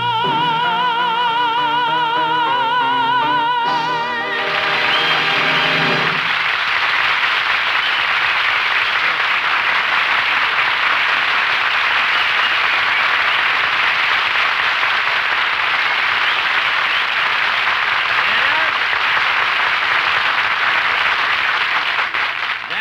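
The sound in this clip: A short musical phrase with wavering sustained tones cuts off and gives way to loud, dense audience applause that roars on steadily for the remaining length.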